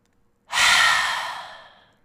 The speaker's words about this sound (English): So I'm going to count to 10 as I inhale up, and then I will let it all go.